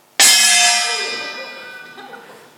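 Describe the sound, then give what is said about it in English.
A small household gong, bought for summoning children to meals, is struck once: a sudden loud, harsh metallic clang with a bright, jangling ring that slowly fades over about two seconds. “my beloved sister-in-law bought us this so that we could summon the children to eat, I think, or something. And it was a great act of love, but it is the world's worst gong because”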